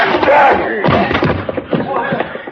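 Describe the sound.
Dull thuds of punches landing on a man during a fistfight, a few heavy blows mixed with scuffling and raised voices.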